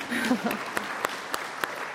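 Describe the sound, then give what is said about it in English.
Audience applause at an author event in Seattle: a dense patter of clapping with a few sharper claps standing out, and a voice briefly heard near the start. “So thank you for being here. You deserve applause too.”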